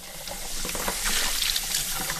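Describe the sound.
Baby bottles being scrubbed out under running water at a kitchen sink: a steady, splashy hiss of water with soft rubbing and sloshing strokes mixed in.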